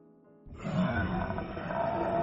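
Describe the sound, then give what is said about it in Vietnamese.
An eerie roar comes from inside a cave. A deep, growling rumble swells in abruptly after a short quiet lead-in, then holds loud and steady to the end. “Một tiếng gầm ghê rợn phát ra từ trong hang.”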